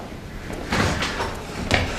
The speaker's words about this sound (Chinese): 开门